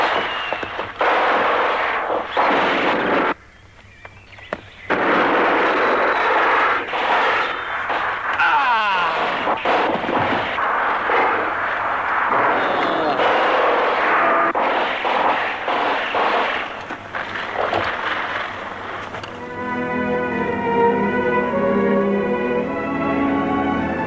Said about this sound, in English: Let's go to Zombie Lake. Our zombies were going through the woods. And, oh boy, the Resistance boys are there and starting to shoot them up.